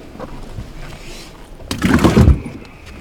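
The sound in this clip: The live well on a fishing boat is opened, with a soft low rumble followed by a louder scraping, rustling thump in the middle and a sharp click right at the end.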